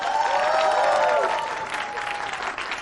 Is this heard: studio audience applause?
yes